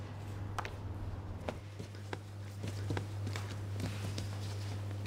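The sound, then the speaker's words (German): Sourdough being slapped and pushed on a floured worktop: soft, irregular thumps and pats that come and go, faint under a steady low electrical hum. “Auf einer bemehlten Arbeitsfläche arbeitet Tina den Sauerteig auf. Und so wirkt, strafft, schlägt und stößt sie ihren Sauerteig, bis er in einem Gärkörbchen landet”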